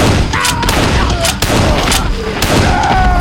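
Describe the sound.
Rifle gunfire during a night attack near a campfire: many loud, sharp cracks in rapid bursts over a dense, rumbling wash of sustained shooting.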